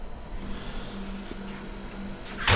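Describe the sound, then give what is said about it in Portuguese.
The doors of a chamber shut with a single loud, abrupt thud at the very end, after a stretch of quiet, low background hum. “Vamos entrar então na câmara. Eu vou fechar as portas para ficarmos”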